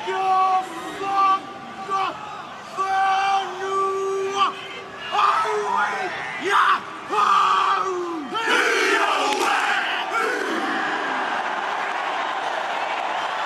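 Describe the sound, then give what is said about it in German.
New Zealand's national rugby team of 23 players performs the haka, the Maori war dance. A lead voice calls out and the group answers in loud, rhythmic shouted bursts of chant. “Was du hier hörst, ist der Haka, der maorische Kriegstanz.”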